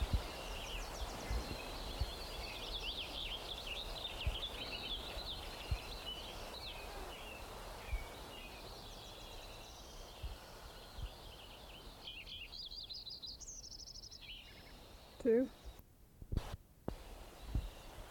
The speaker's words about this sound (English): Lincoln Sparrow number 2.